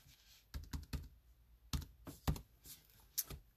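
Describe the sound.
Computer mouse clicks, a handful of sharp, faint clicks in irregular clusters, separated by short quiet gaps.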